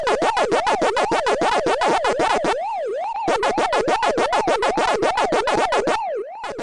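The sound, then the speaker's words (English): Pac-Man arcade video game sounds: fast, evenly repeating chomping blips ride over a wailing siren tone that sweeps up and down. The blips drop out twice, leaving the siren alone for a moment. “I'm old enough to know that really, really well. That's Pac-Man.”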